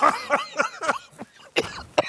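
Someone coughing and clearing their throat: a series of short, rough, hacking bursts in quick succession, loud and close, separated by brief pauses, with a heavier cluster of coughs toward the end.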